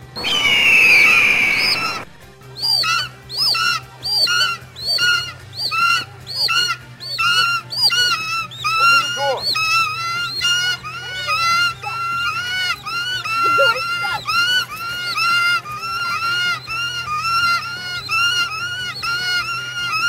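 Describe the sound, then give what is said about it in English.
Generic eagle cries and squawks from a movie's soundtrack: a loud, shrill screech opens, then many short, harsh calls repeat in a quick, steady rhythm over a low constant hum. “squawks and generic eagle cries repeated every minute for the second half of the movie”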